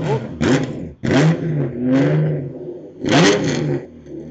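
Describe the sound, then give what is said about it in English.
A recommissioned Ford GT40's engine revs in several loud bursts, each throaty blip climbing in pitch and then dropping away before the next. “You've just recommissioned that vehicle we can hear now.”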